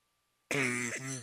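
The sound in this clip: A person with allergies clears their throat once after silence: a single loud, voiced rasp lasting under a second.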